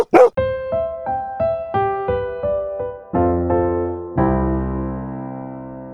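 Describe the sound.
A dog bark sound effect: one short, sharp bark at the start, then a sting of resonant, bell-like musical notes stepping along and ending on a long, ringing chord.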